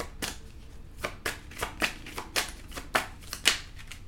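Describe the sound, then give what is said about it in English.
Tarot cards handled and a single card drawn from the deck: many crisp, papery flicks and slaps in an irregular rhythm, moderately quiet, with no talk. “I'm going to pull one card for each sign right quick as we're closing this out. May I have a card for Capricorn?”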